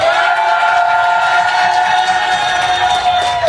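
Loud cheering and shouting from a live show audience in an amphitheatre in Annecy, a dense, sustained roar with shrill whistle-like tones held throughout.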